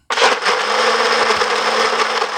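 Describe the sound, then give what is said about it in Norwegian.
A kitchen blender is switched on to check that it works and runs with a loud, steady, high whirring drone that starts abruptly and continues without a break. “Skal vi sjekke at blenderen virker først da?”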